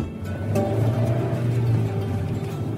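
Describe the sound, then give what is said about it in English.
Steady low engine rumble and road noise from a car driving, even and continuous throughout with no talk. “I left the theater and started driving towards Osceola.”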